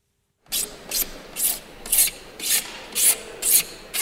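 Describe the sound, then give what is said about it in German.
Rhythmic filing rasps in Madrid exhibition halls being set up for the world climate conference: about eight even, scraping strokes follow a brief silence at a steady pace, each a hissy rasp of similar loudness. “In den Hallen wird noch gefeilt und gehämmert, Regale und Zimmerpflanzen werden an ihren Platz gestellt”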